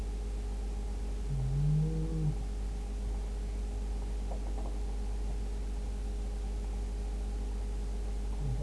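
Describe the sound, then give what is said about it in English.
A cow gives a single low moo, fairly faint, that lasts about a second over a steady background hum and noise; the rest is quiet. “Those are the cows.”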